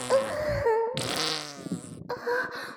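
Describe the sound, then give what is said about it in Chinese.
A fart from a person with a painful stomach in a meeting room: a long, sputtering, rasping release broken into a few bursts, with pitched, voice-like strains mixed in, fairly loud throughout. “哎呀，我又要放屁了！”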